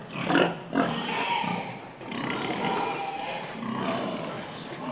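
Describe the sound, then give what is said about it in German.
Pig grunts and squeals from a sow circling a boar on a farm in the Schleswig Geest, rough and dense, with two sharp bursts near the start followed by steady, noisy grunting without any talk. “Die Sau, die hier um den Eber tänzelt, erwartet gleich ein seltenes Vergnügen.”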